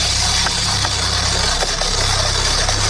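A bingo drum, the Jackie Cooney birthday drum, spins for a morning draw with a steady, loud rumbling rattle and faint scattered clicks. The churn stays even throughout, gentler than a hard spin.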